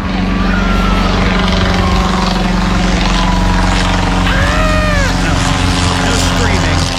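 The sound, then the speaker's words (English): A Wright B replica flyer aircraft engine drones loudly and steadily, a constant low buzzing hum with a rough mechanical edge that holds level without a break. “that's actually the sound of the Wright B replica flyer.”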